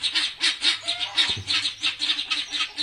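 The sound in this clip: Geese honk over and over in a fast, rhythmic series of loud, nasal calls that stay steady throughout, with no talking.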